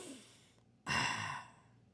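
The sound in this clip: A deep breath drawn in: a single strong rush of air that starts abruptly after a quiet stretch, holds for under a second and then fades away, with no other voices.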